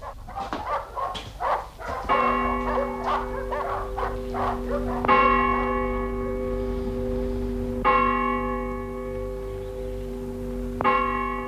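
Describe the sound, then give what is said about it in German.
Dogs bark in a quick burst of several sharp yaps, then a deep bell tolls four times, each stroke ringing long and slowly fading into the next. “Die Hunde sind verrückt. Sie werden uns nicht schlafen lassen.”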